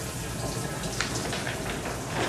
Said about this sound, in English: So, come join me in the shower.